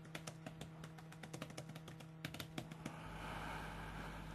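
Writing heard as a faint, quick run of sharp taps and clicks in an uneven rhythm, giving way to a soft steady hiss near the end.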